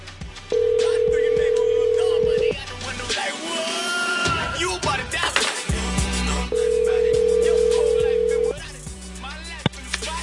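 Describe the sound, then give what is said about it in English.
A telephone call rings out with two long, steady ringback tones of about two seconds each, separated by a stretch of voices talking. “I'm going to try calling him again.”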